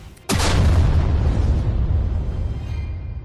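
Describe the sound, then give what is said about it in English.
An explosive fireball boom from a fantasy spell effect during a tabletop role-playing game: one loud, sudden blast followed by a long, rumbling decay that slowly fades. “Yeah, we could do a fireball. Let's do a fireball here. Fireball. Booyah.”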